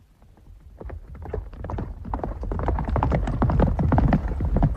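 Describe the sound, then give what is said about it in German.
Horses gallop with fast, dense hoofbeats that start faint and grow steadily louder into a heavy, driving rhythm, with no voices over them. “Schont die Pferde, Mohalab!”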